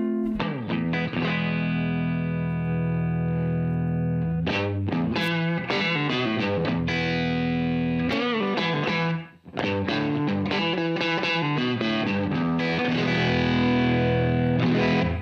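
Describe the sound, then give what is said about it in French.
Electric guitar through a Universal Audio Marshall amp-simulation pedal, playing loud chords and riffs with thick, crunchy distortion. The sound is continuous, with a brief dip in the middle, and no talking. “Je vous laisse le soin de découvrir cette pédale qui marche vraiment super bien. Comme toujours, chez Universal Audio, c'est pas donné. On est dans les 400 balles pour uniquement le son Marshall”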